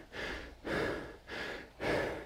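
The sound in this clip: Heavy breathing after a HIIT Tabata workout: four loud, rough breaths in a steady rhythm, each a long breathy rush of air, with no talk.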